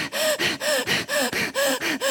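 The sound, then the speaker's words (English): A person deliberately takes rapid, rhythmic gasping breaths while sitting having coffee, producing a quick, evenly spaced run of loud, harsh intakes with brief gaps between them. “I got to get my 20,000 breaths in, and I'm really busy later, so I'm just going to get it all in now.”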